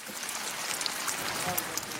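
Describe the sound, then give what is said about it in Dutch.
Rain falls at a sled track in Winterberg, Germany, on a grey day of about six degrees: a soft, steady, even hiss of drops with no distinct individual hits, faint throughout. “Het is 6 graden, het regent, het is grijs.”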